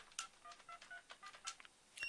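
Telephone dialing tones on a radio call-in line, a faint, rapid string of many short electronic beeps of differing pitch following one another without pause.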